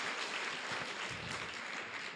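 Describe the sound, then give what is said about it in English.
Faint, thin applause from an audience, a soft continuous patter of a few hands clapping without strong peaks. “Wow, that was very weak clapping.”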